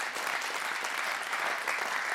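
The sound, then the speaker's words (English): Steady applause from a church audience giving a clap offering, a dense continuous wash of hand claps that holds at an even level for the whole clip with no single voice standing out. “So let's give the Lord a clap offering for that, for what God is doing.”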